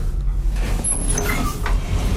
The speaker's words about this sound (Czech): Dveře výtahu se otevřely.